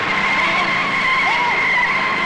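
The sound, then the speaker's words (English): Tires screech as an ambulance skids and fails to stop at a hospital entrance. A sustained, high, harsh squeal holds steady for the whole brief moment. “He runs away as the ambulance fails to stop and crashes into the entrance.”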